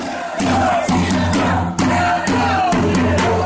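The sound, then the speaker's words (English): Several hundred people marching through Philadelphia in protest of genetically modified food make a loud crowd roar, with shouted, chant-like voices pulsing in a steady repeated rhythm throughout. “That's the sound of several hundred Philadelphians marching from Rittenhouse Square to Love Park last Saturday in protest of genetically modified food.”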